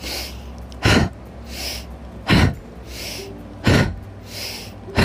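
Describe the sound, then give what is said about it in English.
Forceful energizing breathwork, with sharp inhales through the nose and hard exhales through the mouth. Four loud, breathy bursts come at a steady rhythm about every second and a half, with a softer airy hiss between them. “It's the forceful inhale through the nose and forceful exhale through the mouth, like this.”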